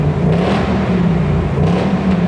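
A car engine revs in racetrack drive mode, a steady low drone that swells slightly without easing off.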